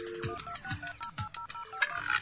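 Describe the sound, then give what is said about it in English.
A faint electronic ringtone signals an incoming telephone call, playing a quick melodic phrase of short repeating notes in a steady rhythm. “I think we got a caller on the line.”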